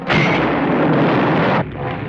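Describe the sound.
Heavy gunfire roars through a battle between apes and humans, a dense, continuous burst held loud for about a second and a half before it drops away to a lower rumble.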